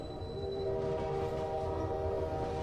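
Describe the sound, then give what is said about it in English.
A yellow Union Pacific freight train passing, heard as a low continuous rumble under a sustained, chord-like droning tone that holds steady and fairly quiet throughout. “A yellow Union Pacific freight train chugs past a building with a tall spire.”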